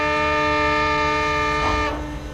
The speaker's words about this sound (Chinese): 随着长长的汽笛声，军列开动了。